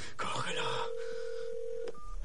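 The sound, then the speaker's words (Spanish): Mobile phone keypad tones as a call is dialed, with a few quick beeps, a long steady tone and another short beep at the end. “Vuelve a encender el mechero tras varios intentos y realiza otra llamada de móvil.”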